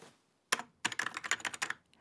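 Faint typing on a computer keyboard as a message is written: after a short lull, many quick, irregular key clicks come in a dense burst, with no voices.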